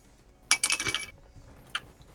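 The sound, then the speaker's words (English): Dice dropped and rolled onto a table for a strength roll in a tabletop role-playing game: a clattering burst of small hard clicks and rattles lasting about half a second, then a single sharp click a moment later. “You drop your dice. That is a 6.”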